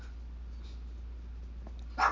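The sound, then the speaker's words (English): A pet dog barks once, short and faint, near the end, over a steady low hum and hiss. “Yeah, there's my dog going off.”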